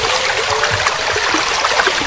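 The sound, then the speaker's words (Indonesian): Flowing water of a large, swift river: a steady, loud rushing hiss with a constant texture and no pauses or voices. “saya seperti mendengar suara aliran air”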